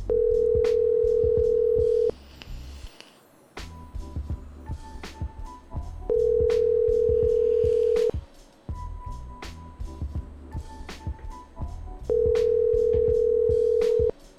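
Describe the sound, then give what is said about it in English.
A telephone dial tone sounds as a steady, loud tone in three bursts of about two seconds each. Between them come quieter stretches of short dialing beeps and clicks as a call is placed. “Let's call this dude. Haven't checked my dialing credit, but I assume it's fine.”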